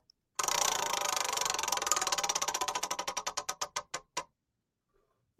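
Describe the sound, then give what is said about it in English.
A roulette wheel spins with a dense run of rapid ticks that gradually slow and spread apart, each click growing more distinct until the wheel comes to rest. “a few more spins left on the underclassmen roulette wheel. Here we go.”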